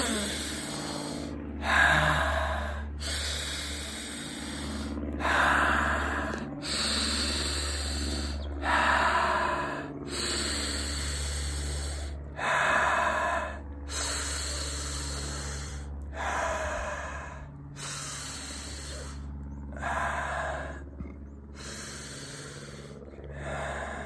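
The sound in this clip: Deep, rapid breaths of a connected breathing exercise, in the style of Wim Hof breathing, repeat in a steady rhythm of many loud, breathy inhale-exhale cycles over a continuous low musical drone, with no talking.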